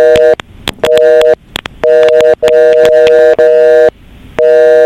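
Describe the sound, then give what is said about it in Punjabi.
A telephone's beeping tone after the call hangs up: loud, steady electronic beeps of equal pitch repeat in a regular on-off pattern, each separated by a short gap. “ਇਹ ਜਿਹੜੀ ਥੋੜੀ to to ਦੀ ਆਵਾਜ਼ ਸੀਗੀ ਇਹਦਾ ਮਤਲਬ ਸੀ ਕਿ phone ਆਪਾਂ ਰੱਖ ਦਿੰਦੇ ਹਾਂ।”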